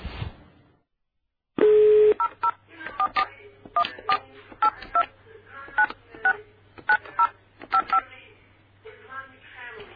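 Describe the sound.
Telephone keypad dialing as a call is placed: a brief steady dial tone, then a quick string of many two-note touch-tone beeps in an uneven rhythm over a faint low hum.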